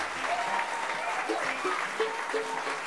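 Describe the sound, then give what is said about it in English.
Audience applause greets the newest member of a band at a live show: dense, steady clapping that holds at an even level for the whole stretch, with faint voices mixed in. “I'd like for you to put your hands together and give a nice, warm welcome to the newest member of the Seldom Seen, Mr. Ricky Simpkins.”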